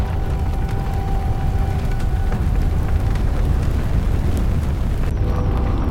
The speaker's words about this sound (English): Papers and photos, including the napkin, are swallowed by the fire.